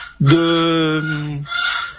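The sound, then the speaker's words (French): A hen squawks loudly in one drawn-out, harmonic call lasting about a second, then gives a shorter second call. “Il y a une poule, qui fait beaucoup de bruit là-bas.”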